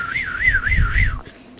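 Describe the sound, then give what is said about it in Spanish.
Warbling whistle from a cane reed water whistle filled with water: a steady bright tone wavers up and down about four times in quick bird-like trills, over a low rumble, then stops abruptly. “mi mami me hacía esos silbadores de carrizo. Y con eso le mandaba un hisopo de lana para silbar con agua, poniendo agua.”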